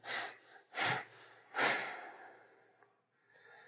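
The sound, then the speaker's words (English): Three sharp, forceful exhales through the nose or mouth, evenly spaced, made while holding a yoga pose to tighten the belly, followed by softer, quieter breathing. “Rodney Yee, he exhales three times in this position to get the belly tight. Try it. So you do three sharp exhales.”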